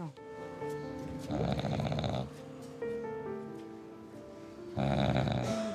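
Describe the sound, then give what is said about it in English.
People asleep under blankets beneath a city on a bitterly cold night snore in two drawn-out, rasping swells over a steady tonal background. “they're snoring. The snory snore.”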